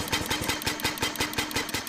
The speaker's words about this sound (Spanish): Atrás está el motor de combustión. Por aquel entonces se le llamaba motor de gas. Quema gasolina y funciona según el principio de cuatro tiempos.